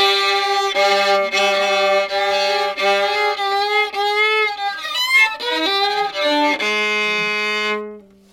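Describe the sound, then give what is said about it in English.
Experimental fiddle playing of long, bowed notes with strong vibrato. A swooping, wavering passage comes in the middle, and the playing cuts off abruptly at the end. “I like it. Experimental fiddle.”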